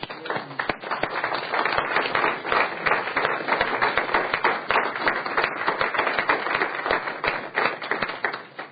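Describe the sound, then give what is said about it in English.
Dense, sustained applause from an audience in a state Senate chamber greeting a group of students and their teachers, many hands clapping steadily for the whole stretch without a break. “If you'd give them a hand, please.”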